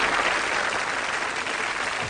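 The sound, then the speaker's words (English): Dense, continuous applause from a crowd, with many hands clapping at an even, steady level throughout and no pauses or swells. “I'm going to give another what an applause. I'm going to find my applause again.”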